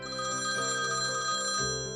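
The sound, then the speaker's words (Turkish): A telephone rings in a living room, a loud, sustained bell-like tone that holds steady and shifts slightly near the end, with no voices over it. “Salondaki telefon çalıyor.”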